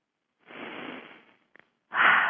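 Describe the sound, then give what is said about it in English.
Deep breaths taken to relax: a long, soft, breathy rush of air, a short pause broken by two faint clicks, then a louder, stronger breath starting near the end. “Let's relax. A couple of deep breaths.”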